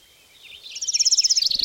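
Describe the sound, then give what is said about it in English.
Bird chirping: a high, rapid trill of repeated tweets that starts faint and swells to a steady, loud pulsing run of quick notes. “Yeah, the fucking birds.”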